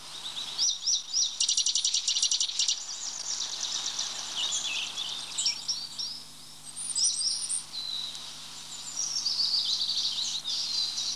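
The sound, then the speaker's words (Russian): A Eurasian nuthatch calls repeatedly in high, thin, piercing notes and quick trilled bursts, clear and continuous over a faint steady hiss. “Это крик поползня.”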